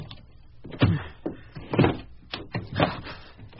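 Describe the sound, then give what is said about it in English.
Rattling and knocking at the handle of a stuck, locked door, recently rehung, comes as several separate clattering bursts with short pauses between them, moderately faint and muffled. “The handle won't even turn.”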